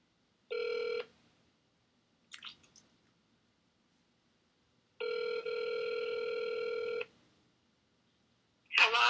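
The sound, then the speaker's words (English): A telephone rings in two bursts of steady, bright electronic tone, first a short ring and then a longer one of about two seconds. Brief scraping noises fall between and after the rings. “won't you pick up the goddamn phone?”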